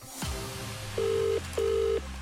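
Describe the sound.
An outgoing phone call rings out unanswered: two steady, mid-pitched ringback tones sound one after the other, each lasting under half a second, over a low background hum.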